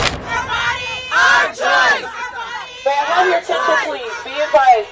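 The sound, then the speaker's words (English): Abortion rights protesters chant as a crowd outside the Supreme Court, loud shouted phrases rising in several rhythmic bursts with short pauses between them. “That was the sound of the abortion rights protest that took place outside the Supreme Court yesterday”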